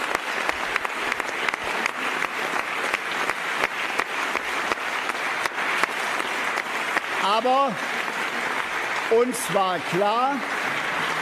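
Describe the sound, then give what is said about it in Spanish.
Sustained applause for German Chancellor Angela Merkel: dense clapping holds an even level for about eleven seconds, and voices speak over it in the final few seconds. “Esos son los aplausos que recibió Merkel”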